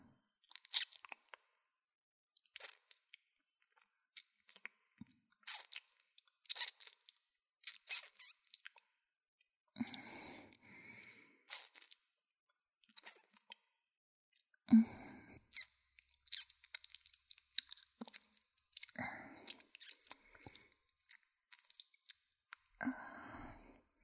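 Crunchy chewing and biting as someone tastes food: many short, crisp bursts come in an irregular rhythm across the whole stretch, with brief pauses between bites, and no talk.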